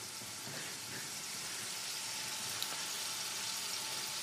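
Onion, peppers and celery frying with salt in a pan give a faint, steady hissing sizzle that stays even throughout, with no talking.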